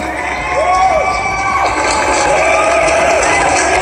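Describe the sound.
A crowd cheers and shouts in a steady, loud roar of voices, with excited whoops rising above the mass of sound throughout.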